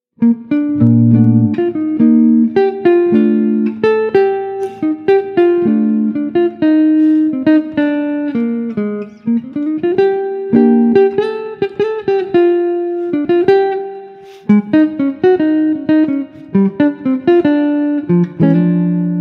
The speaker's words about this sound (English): I don't know how well I can play the solo guitar, but it sounds like this.